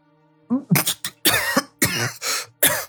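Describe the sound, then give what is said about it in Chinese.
Sputtering coughs from a man who has just choked on a mouthful of milk tea, a rapid run of harsh, throaty bursts separated by brief gaps. “云峰噗的一声，口中的奶茶差点喷了出来，他连忙咳了咳，半晌才说道：”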